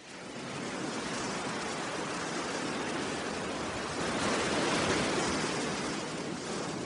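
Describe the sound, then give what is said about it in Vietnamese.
Waves surge onto a sandy shore of a remote island at night and wash over dead coral, a continuous roaring hiss that swells a little midway and then eases, with no voices. “Biển đêm lặng lẽ, chỉ có tiếng sóng xô ào ạt từng đợt lên bờ cát, tràn lên cả dĩa san hô chết mấp mé gốc cây phong ba già.”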